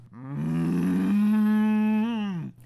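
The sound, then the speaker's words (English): A cow moos in the distance, giving one long, low, steady droning call of about two and a half seconds that holds its pitch before dropping off abruptly at the end. “That cow over there wasn't speaking. It was kind of just mooing.”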